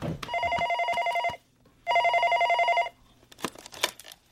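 A telephone rings in two loud, steady electronic bursts with a short gap between them, followed by a few scattered knocks and clattering sounds.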